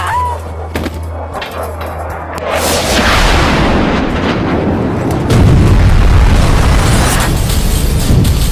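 Bombing and napalm explosions from the film 28 Weeks Later: a dense, booming roar of blasts that swells around the midpoint and grows louder still toward the end, with no voices present.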